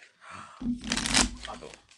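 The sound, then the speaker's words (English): A deck of cards is shuffled during a tabletop card game, giving a single burst of rapid, papery fluttering that swells and then fades over about a second. “Give us a good shuffle.”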